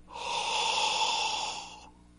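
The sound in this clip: A voice imitates blowing hot breath onto a window: a single long, breathy exhale that swells, holds steady for over a second, then fades out.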